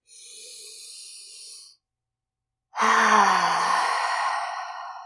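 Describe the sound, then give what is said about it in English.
A deep breath taken to recenter: a soft, airy inhale, a pause of silence, then a louder, slightly voiced sighing exhale that slowly trails off. “We can take a deep breath here to recenter our energy.”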